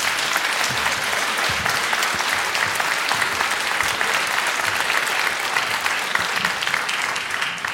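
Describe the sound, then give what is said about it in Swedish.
Enthusiastic audience applause as newspaper and news editors are welcomed onto a stage for a panel: steady, dense clapping that stays loud and even for nearly eight seconds. “Alla hjärtligt välkomna upp på scenen till publikens enorma bifall.”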